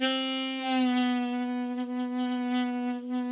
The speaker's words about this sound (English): On a B-flat harp, they sound like this. 1 draw.